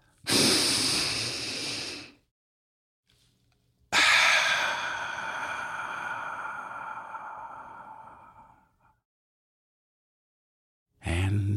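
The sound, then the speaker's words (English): Deep breathing: a long, airy inhale, then a slower and longer exhale that fades out. Another breath starts right at the end, and the breaths are loud and alone, with silence between them. “And now, if you're ready, let's take a deep breath.”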